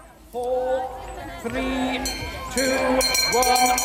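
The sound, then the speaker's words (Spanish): Crowd at the World Worm Charming Championship in a field in Willaston, Cheshire: many overlapping voices chattering and calling out in short bursts. “Tenemos, por ejemplo, el Campeonato Mundial de Encantadores de Gusanos, que se celebra en Willaston, en Cheshire, y que suena así.”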